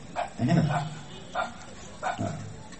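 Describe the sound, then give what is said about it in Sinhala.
A dog barks in a few short bursts, moderately loud and spaced unevenly with pauses between them. “බල්ලෙක් පුරනවා ඇහෙනවා නේ?”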